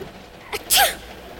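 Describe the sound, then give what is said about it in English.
A single sharp sneeze from someone shivering with cold, a short loud burst that ends quickly, then quiet. “You wouldn't be sneezing if you weren't cold.”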